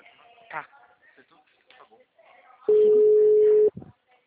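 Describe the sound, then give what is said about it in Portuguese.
A dropped phone call gives way to a busy tone: one steady, loud mid-pitched beep lasting about a second, then a brief blip, following quiet talk. “caiu a ligação.”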